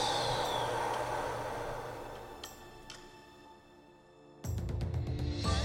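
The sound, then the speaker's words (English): Slow exhale during guided DMT breathing: a long, airy breath out that gradually fades over about four seconds over soft background music, then a louder low sound begins near the end. “Short hold, no squeezing. As we slowly exhale back out.”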